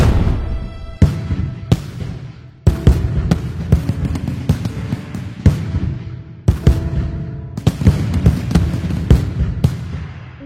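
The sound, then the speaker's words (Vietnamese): Strings of firecrackers explode for the spring festival, with many loud, sharp bangs in irregular bursts and rapid crackling runs between them. “Tiếng pháo chạo xuân nối đuôi nhau đùng đùng, toạch toạch.”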